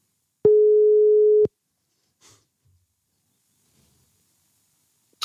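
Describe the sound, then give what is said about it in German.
A single telephone call tone sounds as someone places a call: one steady electronic beep at a constant mid pitch lasting about a second, followed by near silence with a faint breath. “ich werde ihn jetzt anrufen.”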